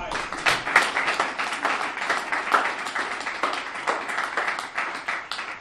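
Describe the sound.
An audience at a recovery group meeting applauds to welcome a speaker. Steady, dense clapping from many hands holds at an even level for several seconds.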